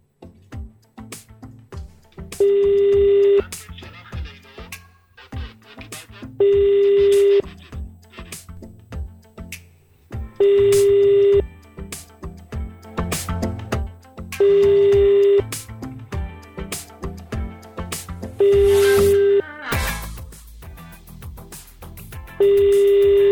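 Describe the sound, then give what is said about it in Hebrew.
A telephone line rings after a call is placed: five steady, evenly spaced ring tones of about a second each, repeating roughly every four seconds over a busy background of other sound. “בואו נחייג על אחד מהם. בשידור חי.”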